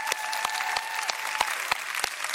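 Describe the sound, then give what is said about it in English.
Audience applause fills a church service welcome, a dense, steady patter of many hands clapping throughout, with a few sharper individual claps standing out above the wash. “Come on, put your hands together. Let's welcome in.”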